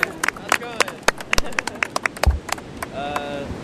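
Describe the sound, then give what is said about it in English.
Scattered hand claps from an audience at an outdoor event on the sand. A few people clap unevenly in sharp, separate bursts, with voices heard over the clapping. “Give him a big hand.”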